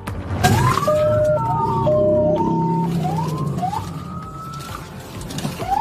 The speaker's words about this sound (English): A police chase right in the middle of an Ironman race.